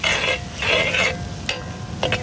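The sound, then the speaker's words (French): Tomatoes are added to hot oil and the sauce sizzles in the pan. Loud crackling, frying bursts come in several uneven waves, with stirring noises between them. “L'huile commence à monter sur la surface et là, c'est prêt. À ce moment, on va rajouter les pommes d'amour, à ce moment précis. Les tomates, donc.”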